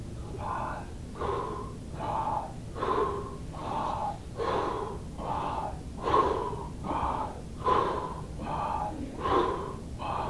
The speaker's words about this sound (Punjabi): ਛਾਤੀ ਨੂੰ ਨਹੀਂ ਹਿੱਲਣ ਦੇਣਾ ਪੇਟ ਨੂੰ ਹਵਾ ਪਾਓ